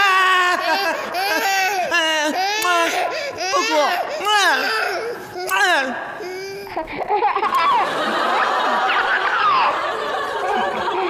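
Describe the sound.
A baby cries in loud, drawn-out wails that rise and fall in pitch, one after another. The crying gives way to a busier mix of sound, and an adult talks over it.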